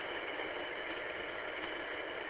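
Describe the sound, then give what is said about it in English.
A small tractor engine runs while a driveway is being fixed up, giving a steady, low, even drone with no change in pitch or loudness. “My little tractor around behind, and here we go.”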